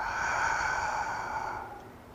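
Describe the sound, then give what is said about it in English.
One long, steady exhalation during a chakra breathing exercise. A soft, breathy rush of air holds evenly for over a second and then fades away, with no talk over it. “And then just exhalation.”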